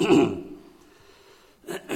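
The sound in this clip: A man delivering a Christian message on godly fatherhood gives one short, rough throat-clearing cough at the start. A quiet pause follows before his talking resumes.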